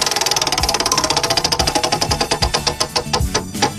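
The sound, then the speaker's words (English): A prize wheel being spun gives a long run of rapid ratcheting clicks that gradually slow and spread apart until only a few separate ticks remain at the end. “can I now spin the wheel, or do you want to spin it twice in a row? No, okay. Go ahead. I'm going to go ahead and give this baby a little spin.”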